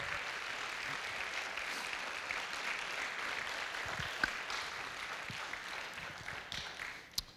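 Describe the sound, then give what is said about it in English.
Audience applause at a church service: a steady wash of clapping from a crowd, fairly soft and even throughout, with a few sharper claps standing out near the end. “a great, great round of applause”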